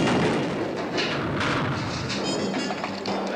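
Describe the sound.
Bombs exploding in the street during a revolution: a loud, dense, unbroken barrage of booming blasts and crackling thuds with no clear pause between them.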